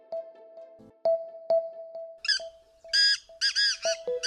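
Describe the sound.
A bird squawks in a few loud, harsh calls in the second half, following a thin steady tone broken by soft clicks. No one speaks.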